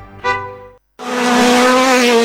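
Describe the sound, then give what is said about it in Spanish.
Rally car engines roar ahead of a road rally. One engine climbs in pitch, then after a brief silent gap comes a loud, sustained high-revving roar with no voices. “Muy pronto rugen los motores en los caminos del departamento. Rally de 33.”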